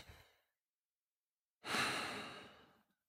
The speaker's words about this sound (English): So to do that, we take in a big breath and let it back out through the nose.